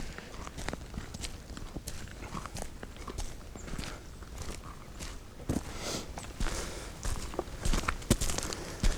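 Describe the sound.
Footsteps crunch along a gravel forest road beside a clear-cut in many steady, even steps. The crunching grows somewhat louder and sharper toward the end.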